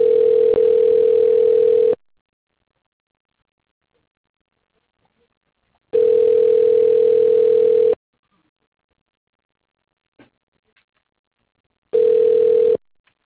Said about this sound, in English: Hold while I transfer your call.